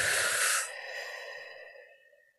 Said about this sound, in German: Durch die Nase einatmen, durch den Mund aus. Wie du willst, das ist dir überlassen. Und dasselbe nochmal. Einatmen und ausatmen.